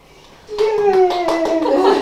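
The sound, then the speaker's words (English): A few sharp hand claps with a voice sounding over them, the claps following in a loose rhythm after a quiet opening. “No, he's cool, man. The way he claps.”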